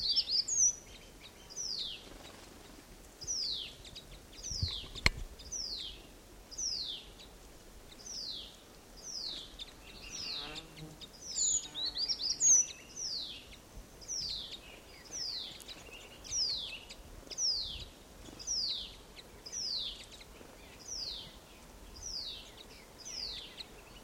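A flock of birds calling: many short, descending high chirps repeat in a steady, even rhythm throughout, fairly faint, with no voices.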